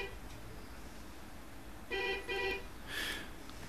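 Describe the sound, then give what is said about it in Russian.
A telephone rings for an incoming call: two short, evenly matched bursts of bright, steady tone close together, followed by a softer brief burst, over a low background hiss. “Ну, а сейчас, конечно же, вот у нас еще один телефонный звоночек идет.”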